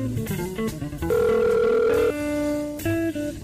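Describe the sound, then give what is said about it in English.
A telephone call to a McDonald's rings on unanswered: steady electronic ring tones in long pulses separated by short gaps, with no voice picking up. “Nobody answer the phone.”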